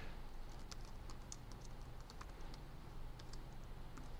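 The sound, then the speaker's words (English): Light typing as a password is entered on a computer keyboard: a quick, irregular patter of many soft clicks over a steady low hum. It is quiet throughout, with no voices. “We type it twice, once at the beginning because they don't want to make sure that you haven't made a mistake in your first go. So you type it twice.”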